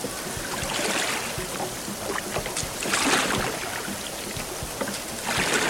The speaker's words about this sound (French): Ça brasse, ça secoue. Et l'embarcation prend rapidement de la vitesse.